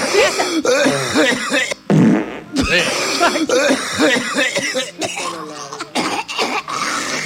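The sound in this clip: Harsh coughing and throat clearing, with wet, spluttering bursts among overlapping voices talking and exclaiming throughout.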